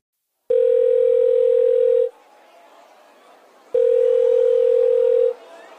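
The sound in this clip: A telephone ring tone sounds as two long, steady mid-pitched tones, each lasting about one and a half seconds. They are loud and separated by a much quieter gap, with no talk.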